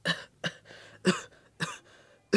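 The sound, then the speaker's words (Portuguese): Five separate harsh coughs, evenly spaced, from a boy with a persistent cough who has been coughing up blood. The coughs are moderately loud, with quiet gaps between them and no talk. “o meu irmão não consegue parar de tossir”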